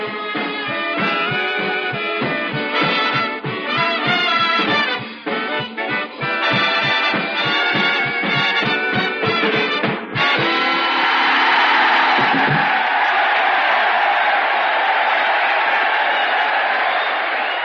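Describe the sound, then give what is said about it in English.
Army officers and enlisted men at Jefferson Barracks, Missouri, as an audience break into loud cheering and applause after a stretch of punchy, rhythmic band music. The crowd noise swells into a broad, sustained roar for the last several seconds. “Yes, sir, that's the sound of our audience, the officers and men of Jefferson Barracks, Missouri.”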